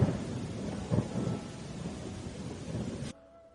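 Thunder and heavy rain: a steady hiss of downpour with low rumbling swells near the start, cutting off abruptly near the end.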